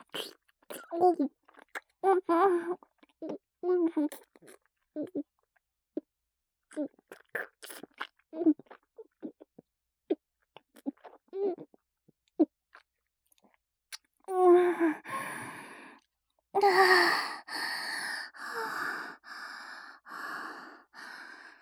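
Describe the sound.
Wet kissing and saliva-drinking sounds made by a voice: many short, soft lip smacks and sucking clicks, followed by louder breathy, voiced moans and gasps near the end.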